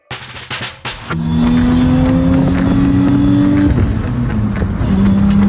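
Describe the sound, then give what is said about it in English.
A flat-six engine fires with a few short bursts, then settles into a loud, steady run whose tone climbs gently before dropping slightly, holding a constant drone to the end. “More flat six noises from OBD1 Kenobi.”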